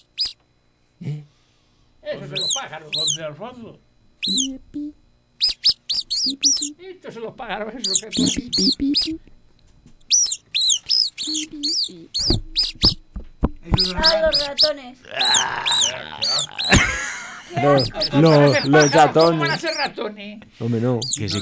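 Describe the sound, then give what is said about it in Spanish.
Mice squeaking in a studio: many rapid, high-pitched chirping squeaks in long bursts, with lower voice-like sounds mixed in between. “Son ratones. Yo pensaba que era pájaro.”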